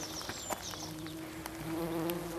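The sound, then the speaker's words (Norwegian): A large early bumblebee buzzing in a museum garden and arboretum at Milde, a steady low droning hum with faint rustles around it, swelling slightly louder toward the end. “Her var det en humle, gitt. Ja, det er noen store, tidlige humler som er ute og”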